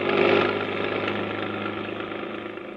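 A car engine runs with a steady, even drone that holds at a constant level with a slight rough pulse, alone with no voices.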